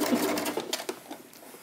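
A sewing machine stitches a bag with a rapid run of mechanical pulses that starts strong and tails off into quieter, sparser taps.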